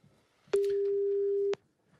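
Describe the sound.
A telephone line rings for a radio call to a listener in Gisors, sounding as a single steady mid-pitched electronic tone lasting about a second, with quiet before and after.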